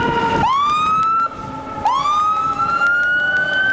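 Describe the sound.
An ambulance siren at an emergency hospital in the bazaar of Gereshk, Afghanistan: a loud, continuous electronic wail that rises steeply in pitch twice and then holds high, with traffic noise underneath.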